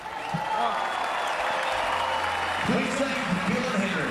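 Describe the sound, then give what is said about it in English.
A crowd claps and cheers at a Newcastle Knights game, a dense, steady wash of applause throughout, with a voice heard over the later part. “Newcastle Knights members and fans, we need to hear. Let's make some noise for these two teams here.”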